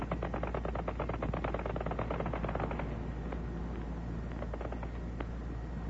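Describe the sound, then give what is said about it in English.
World War I anti-aircraft fire: a dense, unbroken stream of rapid bangs at a steady loud level over a low rumble, thinning slightly in the second half, with no voices. “The sound of anti-aircraft fire.”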